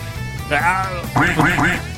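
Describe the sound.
A person imitates a duck quacking in a gravelly, nasal duck voice, giving one short burst and then a louder run of several rapid, squawking quacks.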